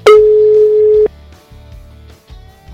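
A telephone ringback tone while a call waits for an answer: one loud, steady mid-pitched tone lasting about a second, then a quiet low hum.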